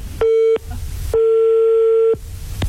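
Telephone busy tone after a call is hung up: two steady, single-pitched electronic beeps, the first short and the second longer, sounding loud over a hissing line.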